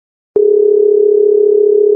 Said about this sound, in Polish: Dzwonię do Aurory.